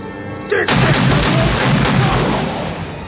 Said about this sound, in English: Don't fire the gun while you're talking.